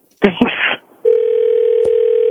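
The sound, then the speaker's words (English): A telephone line tone as a call is placed back: a brief stretch of speech, then a short gap, then a loud, steady continuous tone held to the end, broken by one short click. “So we're going to call her back now and you're going to talk to her.”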